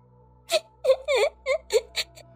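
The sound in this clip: A young child cries inside a temple, letting out a string of wailing, whimpering sobs in short voiced bursts separated by brief pauses, fairly loud against a quiet low hum.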